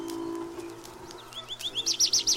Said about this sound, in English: It is spring. The birds are in full song. Woods and fields, gardens and shade trees resound with their music.